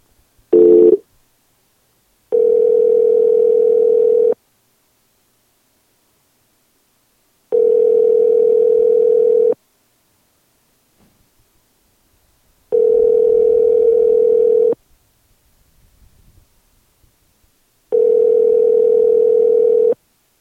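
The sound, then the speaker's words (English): Ringback tone of an outgoing telephone call: a short beep, then four steady, even-pitched tones of about two seconds each, separated by roughly three-second silences. “Calling him right now. Here we go.”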